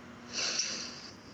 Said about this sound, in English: we're going to start by taking a deep breath together. So let's inhale